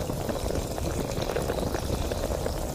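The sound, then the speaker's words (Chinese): A bottle of liquid bubbling and fizzing in a dense, steady crackle of tiny bursting bubbles that stays at an even loudness from start to finish. “它在冒泡。”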